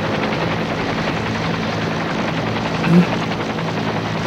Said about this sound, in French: L'hélicoptère arrive,